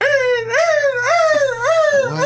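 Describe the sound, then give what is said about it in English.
A human voice imitates a hurt puppy: high, nasal whimpering whines, several wavering rise-and-fall cries strung together almost without pause. “That's like a hurt puppy.”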